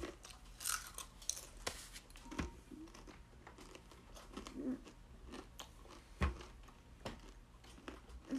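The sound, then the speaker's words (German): Potato chips crunch under steady chewing, with many crisp, sharp bites and crackles at an irregular pace. The crunching is fairly quiet and no one speaks. “ich esse ja die ganze Zeit Chips”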